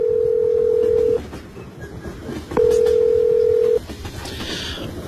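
Steady phone tones sound as a mobile number is dialed: two long, even, mid-pitched beeps separated by a short gap, over a low background hum and faint clatter.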